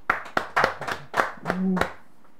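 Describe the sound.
Church audience clapping: a handful of sharp, loud claps land in an uneven rhythm over about two seconds, and a voice sounds briefly among them.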